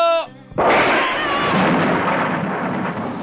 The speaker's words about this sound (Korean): 아! 아! 새까맣게 탔어. 벼락 친 거 맞지?